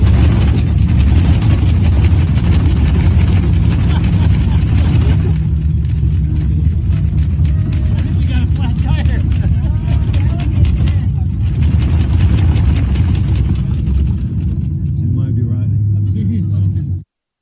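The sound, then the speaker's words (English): Steady, loud roar and rumble inside a passenger plane landing at DFW airport, with mechanical rattling and clatter running through the whole stretch before it cuts off abruptly at the end. “this was a flight landing in DFW, and you tell me what you're doing if you're aboard this flight as it's about to touch down”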